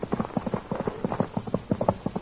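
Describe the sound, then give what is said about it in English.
A horse's hooves clip-clop in a steady, brisk rhythm, many hollow knocks following one another at a moderate volume, with no voices. “Then he rides again. Quiet. Here comes the horse.”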